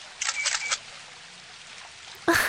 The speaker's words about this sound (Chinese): 打扰一下，麻烦你能帮我们拍一张照片吗？